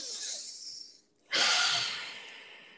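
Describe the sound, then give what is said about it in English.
A group takes a deep breath together: a soft airy rush of breath for about a second, a brief silent pause, then a louder, fuller breath that slowly fades away. “Now, everybody take a deep breath.”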